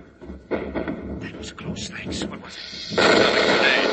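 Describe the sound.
Gunfire from a secret turret, a radio drama sound effect, bursts out under urgent voices, with sharp crackling reports and a louder, sustained blast toward the end.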